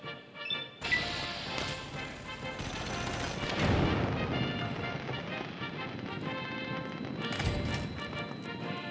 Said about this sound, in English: Switch to a pulse grenade. This will give him an EMP blast.